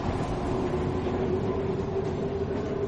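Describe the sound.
A subway train rumbles steadily through a metro, with a continuous dense roar of wheels and carriage noise and a faint sustained whine running throughout.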